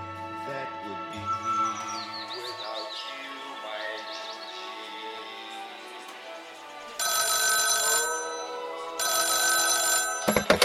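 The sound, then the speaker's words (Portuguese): A telephone rings in a bar in two loud, bright bursts of ringing near the end, after a stretch of softer high, chirping tones. “no bar Veloso, o barman fala que eh, tinha um telefonema pro Tom Jobim”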